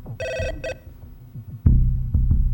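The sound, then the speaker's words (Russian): An electronic telephone rings on a desk in two short, bright, warbling bursts, followed by heavy low thuds and a steady low rumble. “На столе звонит телефон.”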